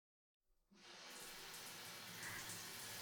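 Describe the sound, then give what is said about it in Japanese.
Warm running water rinses shampoo from hair in a steady, soft hiss. It starts after a short silence, rises quickly and then flows evenly and faintly to the end, with no voices. “それでは洗い流していきますね。”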